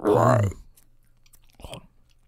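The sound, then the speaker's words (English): Someone eats a hunk torn from a block of Tesco Extra Mature cheese. A short voiced sound comes first, then soft, faint mouth noises and one louder munching bite. “Just tore a lovely hunk of cheese off of this block. And let's get some ASMR eating effects here.”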